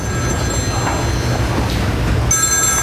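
A telephone rings with an incoming call, its steady high tonal ring sounding over a constant low rumble and noisy background, with the tone shifting in the last half second.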